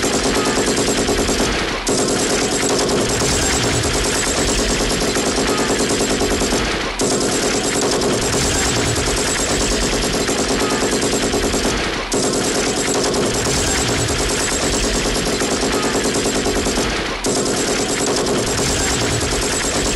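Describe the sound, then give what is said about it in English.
Machine gun fire in long, loud, continuous automatic bursts, about five of them, separated by brief pauses, with no talking. “I heard you were in trouble, so I brought my machine gun with me.”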